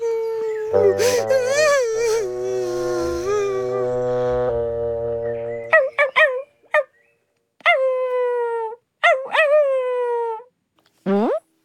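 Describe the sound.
A puppy crying and howling: a long, wavering, drawn-out howl for several seconds, followed by a few short, sharp whimpering yelps with gaps of silence between them.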